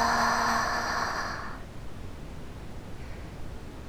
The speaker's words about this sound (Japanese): こういうのってブラウンノイズって言うらしいよ。落ち着けて集中力高まるんだって。